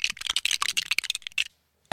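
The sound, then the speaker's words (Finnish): Bricks clicking as they snap together in a Lego video game. A dense run of many crisp, bright clicks comes in quick succession, then a short silence, then one final sharp burst. “Eli kyseinen ääni on sitten Lego-palikoista rakentaminen ääni Lego-peleissä.”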